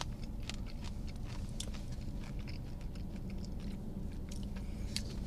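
Faint, steady crunching as someone chews popcorn and pretzel snacks, with many quick, dry clicks and cracks running throughout.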